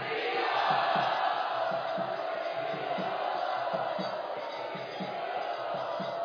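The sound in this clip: A crowd chants loudly in welcome, a massed wash of voices carried over a regular, rhythmic low pulse that repeats many times.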